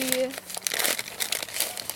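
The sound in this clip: Crinkly packaging being unwrapped, giving a dense run of sharp crackles and rustles for the whole two seconds, with a voice heard briefly at the start.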